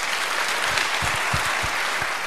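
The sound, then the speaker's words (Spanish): Audience applause at a ceremony honouring the local Guardia Civil in Guijuelo, a dense, steady sheet of clapping from many hands that runs unbroken through the whole stretch with no voices. “Así que un aplauso para toda la Guardia Civil de Guijuelo.”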